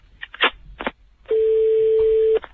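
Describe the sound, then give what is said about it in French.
A telephone is dialled to place a call: a few quick keypad clicks and tones, followed by a long, steady, pure electronic tone held for about a second, then a click. “J'appelle monsieur le maire.”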